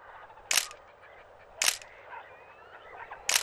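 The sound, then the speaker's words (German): Camera shutter clicks while exotic trees and brightly coloured birds are photographed on a river journey: three sharp, separate snaps spaced over a few seconds above a faint, low background murmur. “Miss Pippin nutzte jede Gelegenheit, um exotische Bäume und bunt schillernde Vögel zu fotografieren.”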